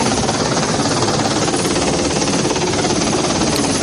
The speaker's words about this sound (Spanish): Así despega un Super Puma del Grupo 82 de las Fuerzas Aéreas, más conocido como 802 Escuadrón, desde la base aérea de Gando, en Las Palmas de Gran Canaria.